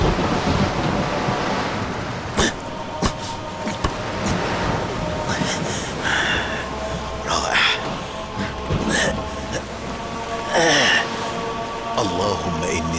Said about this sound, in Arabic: وألقى الخشبة في البحر وسط العاصفة.